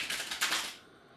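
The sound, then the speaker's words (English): A deck of cards being shuffled: a quick, faint flutter of rapid clicking lasting under a second, then quiet. “you can connect to the sound of the cards by listening in to them being shuffled.”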